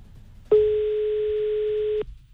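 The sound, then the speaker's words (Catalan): A telephone call's ringing tone: one steady, unbroken electronic tone lasting about a second and a half, clear and fairly loud against a quiet, faintly noisy line. “Darrer cop que truquem, a veure si ara sí que ens agafa el telèfon.”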